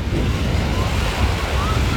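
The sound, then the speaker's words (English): Breeze blowing at a beach by the water, a continuous low rushing buffet mixed with the broad wash of surf, steady and fairly loud throughout with no talk. “that breeze feels amazing down there.”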